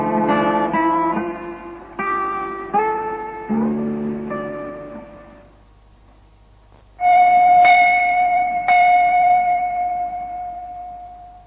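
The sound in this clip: A temple bell rings during an incense offering with several struck tones whose harmonics linger and decay. The later strikes are louder and ring on at a steady pitch.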